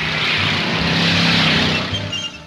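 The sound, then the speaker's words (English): A hot rod roars down a dusty drag strip and speeds across the finish line. Its engine gives a loud, sustained roar that eases slightly near the end. “At a dusty drag strip, Vince and Sherry watch hot rods on a straightaway. One car speeds across the finish line.”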